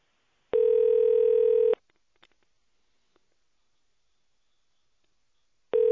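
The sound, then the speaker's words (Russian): Telephone ringing tone while a call is being transferred: one steady, mid-pitched tone lasting just over a second, then about four seconds of near silence before the tone starts again at the end. “Осуществляется перевод вызова. Пожалуйста, ожидайте.”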